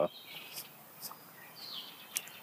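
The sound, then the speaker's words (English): Faint bird chirps in a backyard: a few short, high, thin calls and tweets scattered irregularly over a quiet background. “come out here in the backyard, sit and watch them fly around, and you can hear them in the background, all the different birds chirping.”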